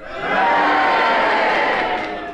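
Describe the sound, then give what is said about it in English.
A studio audience cheers in a panel game show. The cheering swells quickly to a loud, sustained roar of mixed voices, then eases slightly toward the end. “Yes, I think the cheers have it.”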